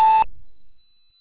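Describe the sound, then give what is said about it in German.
A single electronic beep from a company voicemail system marks the start of message recording: a steady mid-pitched tone with bright overtones lasting about a quarter second, then fading out, with no talk around it. “Sie können nach dem Signalton gerne eine Nachricht hinterlassen.”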